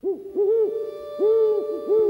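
Owl hooting: four low, wavering hoots in two pairs, each arching slightly up and down in pitch, clear and alone with no other sounds.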